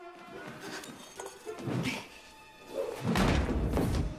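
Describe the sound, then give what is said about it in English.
A heavy shot ball is tossed across a room, landing with deep thuds and a rumbling crash, the second impact louder and more drawn out. “Miss Honey rushes to a pile of shot balls. Struggling to lift one, she tosses it across the room.”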